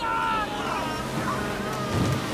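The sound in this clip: A big ocean wave rises as a rowing boat heads toward land before a shipwreck: a steady, broad roar of surf mixed with wind noise that holds fairly level throughout.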